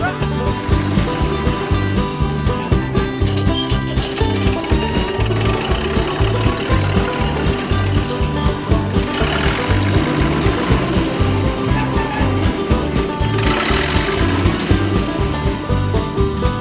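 A farm tractor engine chugs steadily with a deep, rhythmic knocking throb that repeats evenly, loud and unbroken for the whole stretch with no talk.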